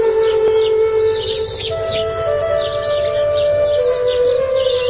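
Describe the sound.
Birdsong on a clear morning: many high chirps and quick trills that keep going through the whole stretch without a break, over a steady background.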